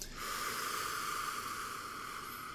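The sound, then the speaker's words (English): A long, deep breath taken in one steady airy rush that holds for over two seconds at moderate, even loudness, with no voices. “I like to take a deep breath every time I start this.”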